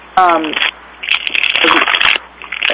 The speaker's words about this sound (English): Whoever's making noise, can you please mute yourself? I hear papers rustling or something.